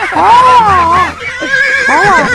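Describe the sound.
A horse neighs in loud, wavering whinnies that rise and fall in pitch, repeating a few times in quick succession.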